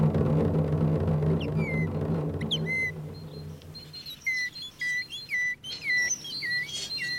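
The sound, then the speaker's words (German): A person whistles an imitation of a tit bird call: several short, high chirping notes repeated in a quick, uneven pattern after a low, faint hum. “Eine Meise? Wer hat eine Meise? Der Baum hat eine Meise.”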